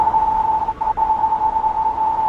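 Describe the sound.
A video game audio cue for a wall to the player's right sounds as a steady, mid-pitched electronic tone that holds throughout. It briefly dips in level once early on and is heard alone.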